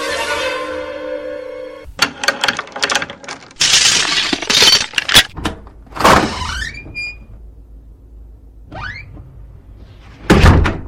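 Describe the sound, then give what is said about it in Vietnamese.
A key rattles and clicks in a door lock, followed by the creaking of the door swinging open and a final dull thump. Metallic scraping comes in a few bursts before the longer creaks. “Ngoài cửa có tiếng chìa khóa cho vào ổ rồi mở cửa.”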